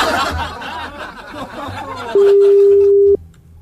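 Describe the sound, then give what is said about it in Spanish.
A telephone ringback tone sounds as a call is placed: one loud, steady electronic tone lasting about a second, after a stretch of voices and chatter. “¿Podemos generar una llamada? Sí, podemos generar una llamada.”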